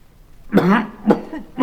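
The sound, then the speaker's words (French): A few short, voiced coughs from a performer in a 1958 recording of a French stage comedy. The first cough is the longest and loudest, and briefer hacks follow. “C'est que je tousse.”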